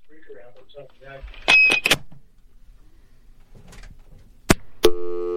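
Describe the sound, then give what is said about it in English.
An incoming phone call on a radio show line: a voice speaks, then loud crackling bursts and a few sharp clicks, ending with a steady buzzing line tone. “Oh, we got a caller coming in now.”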